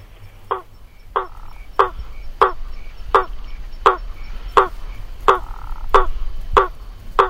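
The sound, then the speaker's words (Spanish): A gladiator tree frog (Hypsiboas faber) calls with eleven sharp, hollow knocks like hammer blows on wood or metal. The knocks are evenly spaced and repeat steadily over a low background hum. “Que se llama rana martillo, Ipsiboa faber. Y el canto que produce es como el golpe de un martillo.”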